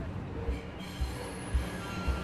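A subway train carrying someone home: a steady rushing rumble with a thin high wheel squeal running through it, and four low thumps from the wheels at regular intervals of about half a second.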